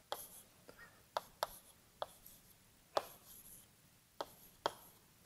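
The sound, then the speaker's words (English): Handwriting as a conservation-law equation is written out by hand: a series of short, crisp scratches and taps in an uneven rhythm, quiet and with no talk. “we have this conservation law. Let's write it.”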